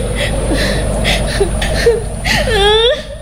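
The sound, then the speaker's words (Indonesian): Tearful crying with whimpering, sobbing vocal sounds whose pitch wavers, swelling into a longer, louder quivering wail near the end. “Loh, kok malah nangis lagi?”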